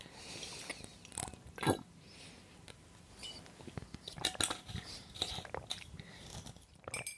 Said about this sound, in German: So, die nächste, also ich trinke nochmal kurz die Flasche hier aus.